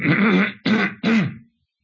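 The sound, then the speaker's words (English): A man with a tiring voice clears his throat during a Bible teaching: three loud, rasping bursts in quick succession, each gravelly and harsh, separated by short pauses. “Excuse me, I've got to clear my voice.”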